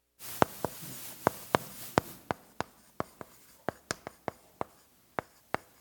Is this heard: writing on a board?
yes